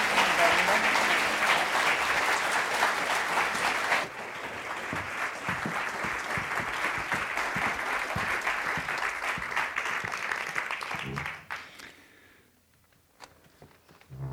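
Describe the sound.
Sustained audience applause welcoming three speakers at an evening program about a book, loud and dense for about eleven seconds with a slight dip near four seconds, then quickly fading to near silence with a few scattered claps.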